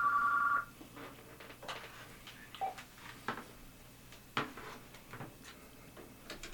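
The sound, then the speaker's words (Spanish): A telephone rings with an incoming call: one short, bright electronic ring at the very start, then faint, scattered clicks and ticks fill the rest of the quiet stretch. “Tenemos una llamada aquí.”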